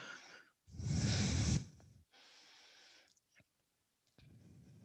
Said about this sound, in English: And exhale, fold forward.